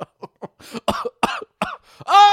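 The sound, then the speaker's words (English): A rapid series of harsh coughs and throat-clearing bursts, loud and uneven, the short explosive hacks coming in quick succession with no talk between them. “even though you coughed your way to the end”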